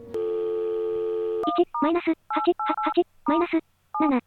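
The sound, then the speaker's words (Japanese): A telephone in a video game sounds a steady dial tone for about a second and a half, then a quick, uneven string of many short touch-tone beeps as a phone number is dialed. “一回かけてみるか。”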